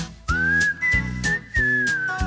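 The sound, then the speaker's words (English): Whistled melody of steady, sustained clear tones that shift slightly in pitch between phrases. It plays over an instrumental accompaniment of sustained chords with regular beats, as part of a cheerful song. “And I'm in the mood for whistling.”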